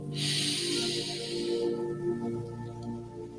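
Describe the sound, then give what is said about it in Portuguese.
A slow, deep breath drawn in during a guided morning meditation, a soft airy rush of about a second and a half over quiet sustained music. “E de repente, inspirando”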